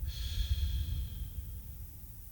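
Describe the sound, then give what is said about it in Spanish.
Slow guided breathing, air drawn in through the nose and let out through the mouth during a relaxation exercise, a soft, steady airy hiss with a brighter nasal edge at the start that fades gradually. “Yo voy a empezar a respirar por la nariz y voy a empezar a exhalar por la boca.”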